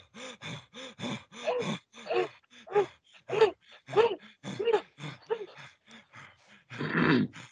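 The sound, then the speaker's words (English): A group breathes fast as if out of breath, imitating the body's natural panting: many quick, uneven breath bursts, some voiced and groan-like, ending in a longer breathy rush. “So everybody do what you normally would do when you're out of breath and the body does it on its own.”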